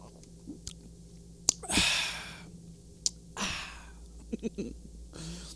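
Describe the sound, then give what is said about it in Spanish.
A sip of orange-flavoured water drink from a small glass: two breathy slurping draws, each followed by an exhale, with small wet mouth clicks between them and no talking. “Yo tengo en este momento, para quitarme el calor, un vasito de agua de naranja rete sabroso, al cual le vamos a dar un trago porque hace mucho calor.”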